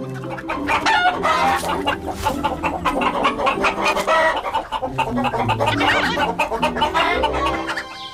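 Hens clucking continuously, with many overlapping short clucks at varied pitch. The sound is loud and busy throughout and has no gaps.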